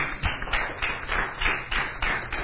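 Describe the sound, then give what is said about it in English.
Faint applause from a church audience. Light hand claps patter along steadily in a soft, uneven rhythm for a couple of seconds. “Boy, I didn't know I'd get an applause for that.”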